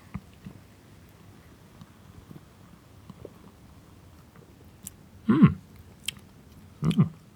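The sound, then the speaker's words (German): Two short gulping sips of a clear yellow beer with a foamy head, each a brief, soft burst set apart by quiet, with faint small rustles in between. “Und jetzt probieren wir mal einen Schluck.”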